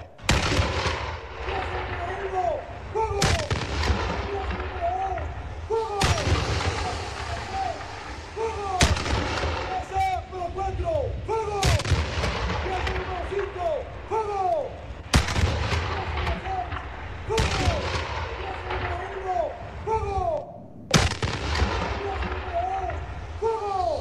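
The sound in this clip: Artillery guns firing on command: heavy, sharp booms recur every few seconds over a steady rumbling background, with voices heard between the shots.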